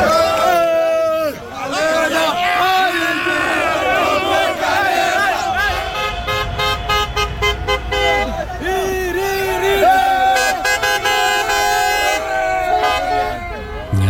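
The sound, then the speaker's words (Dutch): Car horns honk repeatedly over a shouting, cheering crowd at a street celebration on a city square in Nijmegen after a Morocco football win. Toots overlap throughout amid loud voices. “De Keizer Karelplein Nijmegen werd flink getoeterd en gezwaaid met vlag.”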